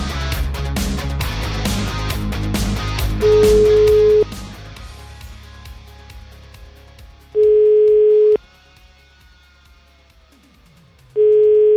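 Ringback tones of an outgoing telephone call: three steady, even-pitched tones, each lasting about a second, separated by longer silences. The first tone comes over a loud, dense background sound that then falls away.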